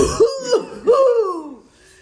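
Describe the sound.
A voice imitates a choking cough during a breathing exercise in a beginners' class, with the person lying down. It comes as three strained, voiced bursts, the last one longer and drawn out before it trails off.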